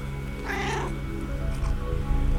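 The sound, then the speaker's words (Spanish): A cat meowing from backstage, giving a couple of drawn, wavering meows that stand alone against a quiet low hum. “que son los maullidos de mi gato entre bambalinas en el backstage del podcast. Quiere decir algo, mi gato.”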